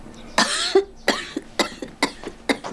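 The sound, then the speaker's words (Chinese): An old woman coughs in a rapid, harsh series of many coughs, loud and hoarse with raspy throat sounds between bursts, heard alone without talk. “大娘，哎呀，看你咳嗽”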